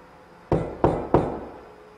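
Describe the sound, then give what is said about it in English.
Three sharp knocks on a wall, evenly spaced and loud, each decaying quickly, alone without talk. “Can you knock again to see if it could have been the vibrations? I'm going to knock again.”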